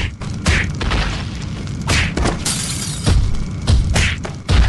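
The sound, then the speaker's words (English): Heavy smashing and breaking of a statue's foundation as an audio drama effect: a series of loud booming, crunching crashes come in several bursts over a continuous rumbling, grinding din. “Those brutes are breaking the foundation of that statue by that child. Surely that child will be crushed.”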